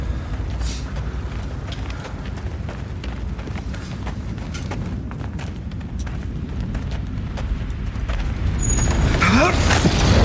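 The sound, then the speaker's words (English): Low, rumbling roar of a fire burning deep down in a chasm, a steady dark churning that swells louder toward the end. “What in God's name is that? It's the chasm. There's a fire down there. No one knows how deep. Sometimes it rears up like a dragon. Like the mouth of hell.”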